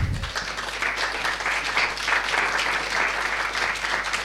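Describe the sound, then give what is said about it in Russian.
Audience applause closes a spiritual talk, a steady, even patter of many hands clapping over a constant low hum. “Я ваши аплодисменты с вашего разрешения собакам перенаправляю.”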